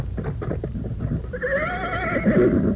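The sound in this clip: A strong horse in a cave whinnies, a long quavering high neigh that follows a few dull hoof thuds; loud, with no talk.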